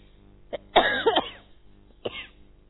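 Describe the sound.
Coughing and throat clearing from one person: a short cough, then a longer rough, rasping burst, and after a pause another brief cough, all fairly loud against near silence.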